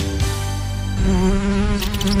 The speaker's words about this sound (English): Bugs bugging you? Rocky Mountain Pest Control in Creston is here to help. From ants to rodents, we tackle all pests.